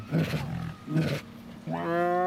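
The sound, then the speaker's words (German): Tigers roar at a zoo near feeding time: two rough, throaty roaring bursts, each under half a second, separated by a short pause, followed by a sustained tonal sound. “im Hagenbecks Tierpark unterwegs, wo ihr euch ganz mutig den Tigern genähert habt.”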